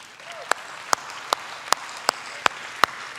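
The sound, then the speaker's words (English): Applause for church cell group leaders comes as rhythmic clapping in unison: seven sharp, evenly spaced claps over a low, steady background. “I want to give a big hand to all of our Kerosene leaders.”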